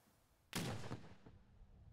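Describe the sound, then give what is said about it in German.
A cannon booms over Dömitz fortress during a festival of Low German language and culture: one sudden loud blast followed by a rolling, slowly fading rumble. “Kanonendonner über der Festung Dömitz.”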